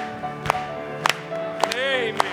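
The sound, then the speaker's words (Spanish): Hand claps from a church audience: four sharp, evenly spaced claps stand out over sustained musical tones, with no other clear sound between them. “Vamos a aplaudirle.”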